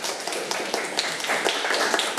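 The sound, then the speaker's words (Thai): Students in a classroom applaud a classmate with quick, dense, overlapping claps that keep a steady, fairly loud level from start to finish. “เก่งมากเลยครับปรบมือให้เพื่อนหน่อยครับ”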